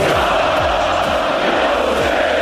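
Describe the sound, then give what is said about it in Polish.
Polish football fans roar and chant in a dense, continuous crowd din that stays loud and steady from start to finish with no breaks. “No to tak, pierwsze to nasi kibice.”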